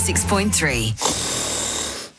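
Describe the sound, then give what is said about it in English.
A person snoring: a brief voiced sound gives way to a long, rasping, breathy snore that stays loud and steady before cutting off. “Is snoring keeping your house awake?”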